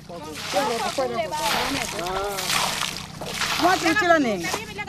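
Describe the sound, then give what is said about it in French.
Water poured into a basin to wash sand away from ore, heard as bursts of sloshing and splashing beneath people talking throughout. “On verse de l'eau ici. Le sable part et le minerai reste.”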